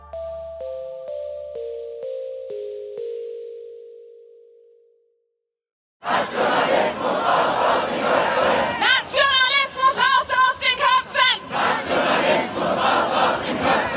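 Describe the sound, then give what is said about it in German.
A protest crowd chants at an anti-AfD demonstration in Berlin, a loud, rhythmic, repeated chant. Before it, a descending series of electronic tones plays, followed by a short silence. “Dieser Sprechchor war am Montag in Berlin zu hören. Auch in Leipzig, Köln, Essen und Rostock haben in den vergangenen Tagen tausende Menschen gegen rechts und vor allem gegen die AfD demonstriert.”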